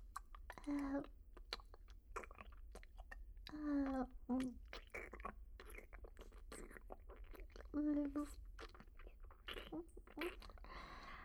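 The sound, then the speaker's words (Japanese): Quiet chewing of a bite of food, with many soft crunchy clicks and wet mouth sounds, interleaved with hushed, whispery speech. “昨夜は随分と意地悪をされたからな。ちょっとした仕返しじゃ。よし、もう一口。”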